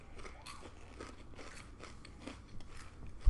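Crunching on puffy, non-sticky lemon popcorn: a quiet run of many crisp, brittle bites and crackles, steady in rhythm, with no talking.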